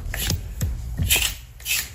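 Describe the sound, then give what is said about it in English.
A knife scrapes the bark off a small, freshly cut birch stick in four short, rasping strokes at an uneven pace. “holding a small piece of birch in his hand, and he's scraping the bark off with a knife.”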